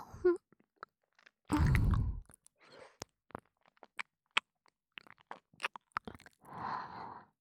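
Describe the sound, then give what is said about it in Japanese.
Chewing candy in the mouth: wet clicks, smacks and crunches scattered throughout, with one loud, broad crunching burst early on and a softer rustly stretch near the end. No talking. “アメ、おいしいな。”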